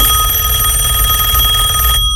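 A telephone rings with a steady electronic tone that holds at an even level throughout, then cuts off abruptly just before the end.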